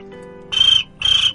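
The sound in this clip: A cricket chirping sound effect plays as two short, high-pitched buzzy chirps, each about a quarter second long, separated by a brief gap.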